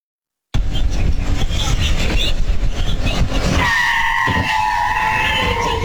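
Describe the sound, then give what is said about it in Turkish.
Car skidding with loud tire squeal as an automobile strikes a woman crossing the road in Esenler, Istanbul: dense, rough road noise gives way to a sustained, high screech. “İstanbul Esenler'de yolun karşısına geçmeye çalışan bir kadına otomobil çarptı. Çarpmanın şiddetiyle savrulan kadınsa yaralandı.”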